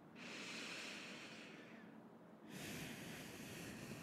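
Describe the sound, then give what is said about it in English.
Slow, deep breathing during a guided relaxation exercise, heard as two long, soft, airy breaths with a brief pause between them, quiet and steady with no voice. “And now let's just take some slow, deep breaths. And just put your hand on your lower belly and expand it outwards as much as you can as you take the next deep”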